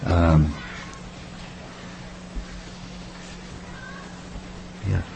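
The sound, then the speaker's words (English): Two short cat meows are heard, one at the very start and one near the end. A faint, steady low hum fills the quiet gap between them. “Here's another example, a nice kitty cat”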